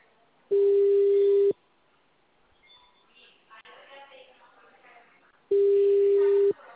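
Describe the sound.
Telephone call tones on an unanswered call: two long, steady, mid-pitched tones several seconds apart, with faint murmuring voices in the gap between them.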